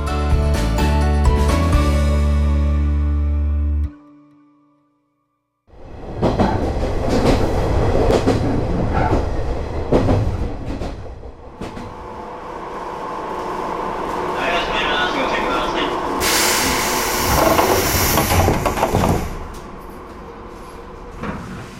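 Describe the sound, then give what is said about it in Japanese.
Train riding a Japanese railway line toward a small rural station: a steady loud rumble with rattling wheel and carriage noise that runs on after a brief quiet gap, with a voice heard early on. “篠ノ井線に乗って旅をしていきたいと思います。”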